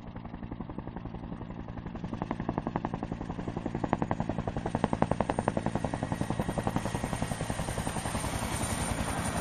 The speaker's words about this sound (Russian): Невдалеке послышался рокот приближающегося вертолета.